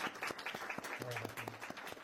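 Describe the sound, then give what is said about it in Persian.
Soft, scattered audience applause at a poetry reading, welcoming a poet to the stage. Light, uneven claps patter quietly for about two seconds, with a faint low hum partway through. “خانم جعفری رو تشویق کنیم که”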